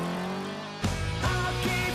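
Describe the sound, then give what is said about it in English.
Ferrari sports car engine driving away along country roads, a steady harmonic drone that jumps into a louder, harsher roar, then shifts pitch twice more as it accelerates. “The Ferrari races along the country roads, leaving the castle behind”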